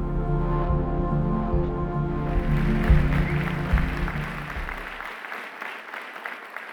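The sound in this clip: Applause from an audience welcoming a speaker to the stage builds after a couple of seconds over a low sustained tone. The tone drops away near the end, leaving the clapping to fade on its own.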